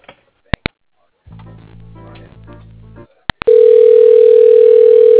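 Phone-line sounds mark a call being transferred to voicemail. A few sharp clicks are followed by a low buzzing tone lasting under two seconds, then two more clicks, then a loud, steady tone that holds to the end.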